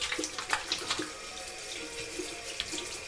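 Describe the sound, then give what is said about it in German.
Water runs from a bathroom tap while dirt is washed off hands. It makes a steady hissing rush broken by many small splashes and clicks, with no voices. “Ich ging in das Badezimmer, um mir den Dreck von meinen Händen zu waschen.”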